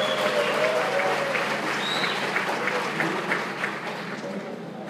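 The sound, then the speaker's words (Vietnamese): Audience applause fills a group training class, a steady, dense wash of clapping hands that runs for about five seconds and eases slightly toward the end. “vỗ tay để cảm ơn anh nào”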